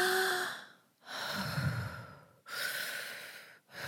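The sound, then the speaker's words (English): Deep, slow breathing from one person: several long, airy breaths with brief gaps between them, each a soft, steady rush of air at a quiet level. “I mean, literally take 2 to 3 deep breaths. I'm going to do it right here.”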